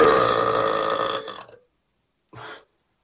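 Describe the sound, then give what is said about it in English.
A loud, drawn-out burp in an attempt at the world's loudest burp, a rough sustained belch of more than a second that tapers off, followed after a short silence by a brief second burst. “Doing an attempt to see if I'm eligible for the world's loudest burp, 109.9 decibels, by Peter Hun from England.”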